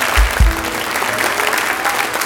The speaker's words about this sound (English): Now give the Lord a hand clap this morning.